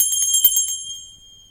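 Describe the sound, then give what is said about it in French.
A small hand bell rings out in a rapid run of bright, high strikes, then its tone lingers alone and slowly fades away. “ils n'entendent point et ma sonnette ne fait pas assez de bruit”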